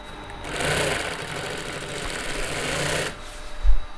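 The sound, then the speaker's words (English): A sewing machine whirs as a worker stitches umbrella canopy covers in a Milan umbrella workshop, one steady mechanical run of about two and a half seconds that then stops, followed by a low thump. “So I see here she's sewing now. What is she sewing? She's just sewing the covers of the umbrella.”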